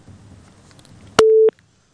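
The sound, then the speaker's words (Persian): Telephone busy tone after a call disconnected, sounding as a single steady, fairly loud electronic beep that cuts in abruptly after a quiet stretch of faint low murmur, then stops and leaves near silence. “خب تماس اینا قطع شد”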